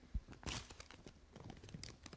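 A paper envelope is handled, giving faint crinkles and rustles with a few sharper crackles that come and go unevenly.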